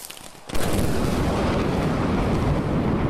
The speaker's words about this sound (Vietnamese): Tiếng sấm nổ như động trời, ánh chớp giật liên hồi